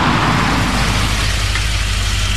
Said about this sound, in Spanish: Héctor se encontraba en el auto de Juan, quien conducía con gran nerviosismo y había decidido orillarse a la entrada de la curva.